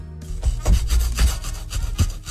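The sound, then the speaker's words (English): A back scratcher is rubbed back and forth in a few rough, raspy strokes, scraping steadily with no voices. “Is this a back scratcher?”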